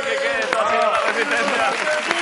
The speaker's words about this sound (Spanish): Un aplauso para